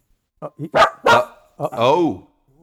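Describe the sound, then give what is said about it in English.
A dog barks at anything coming down the driveway: a few sharp, loud barks in quick succession, then a longer, drawn-out bark that wavers in pitch. “so he'll bark at anything coming down the driveway”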